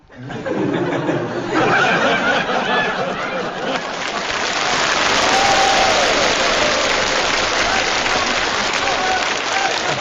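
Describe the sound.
Live audience applause that rises after a brief start and holds as a loud, continuous wash for about ten seconds, mixed with laughter and voices.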